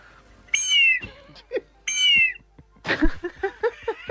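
Two long, wavering whistle blasts from a bird-call whistle meant to imitate condor and harrier calls, high and harmonically rich with a slight downward sag, followed by a few short, rough bursts.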